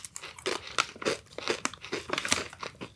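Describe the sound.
Crunching and chewing of thin, crisp lemon pizzelle cookies: many quick, brittle bites and chews in an uneven run, fairly quiet, with no talk.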